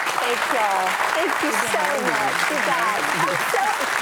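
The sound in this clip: Studio audience applause welcoming a guest speaker onto a talk show stage: a dense, steady wash of clapping lasting the whole stretch, with cheering voices calling out over it.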